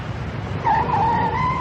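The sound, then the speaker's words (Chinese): A car pulls to a stop on a county-town street, its tyres letting out a sustained high squeal over a low engine rumble, the squeal starting partway through and holding to the end. “车在县城街道上停下”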